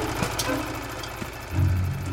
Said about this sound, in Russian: Старший мальчик на мотоцикле едет по ночной степи. Останавливается.